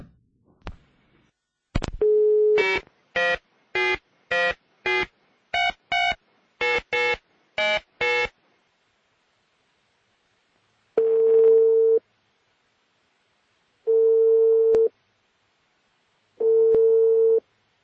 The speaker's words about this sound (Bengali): নাম্বারটি ব্যস্ত আছে, the number is busy now.